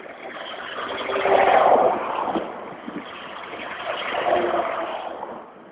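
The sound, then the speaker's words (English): Two big trucks pass along a road, one after the other. Each is a broad, rumbling engine roar that swells and fades, with the second pass coming a few seconds after the first. “oh dear, there's a couple of big trucks coming. I'm gonna step off the road.”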